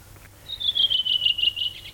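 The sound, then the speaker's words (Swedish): Redwing singing energetically, a rapid run of high, bright notes that slides gradually downward in pitch, heard alone over a faint low background. “Ja, så sitter den där en rödvingetrast och sjunger energiskt, frenetiskt. Sjunger och sjunger och sjunger.”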